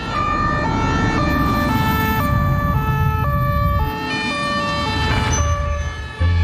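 A police car siren blares loudly in a steady two-tone pattern, its high and low pitches alternating about every half second, with no talk over it.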